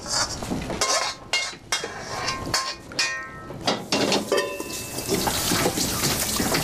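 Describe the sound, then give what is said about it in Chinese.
Tap water runs at a sink during meal preparation as hands are washed, a steady splashing broken by several sharp clinks of dishes and cutlery. “你别管了，你去洗手。啊，去洗手。”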